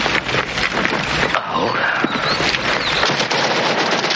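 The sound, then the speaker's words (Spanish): Simulated gunfire from sonic training weapons during a military exercise in a 1986 war film, rapid dense rattling bursts running continuously at high level, with voices mixed in. “Webster se asusta al ver a los de reconocimiento saltar sobre ellos disparando sus armas sónicas.”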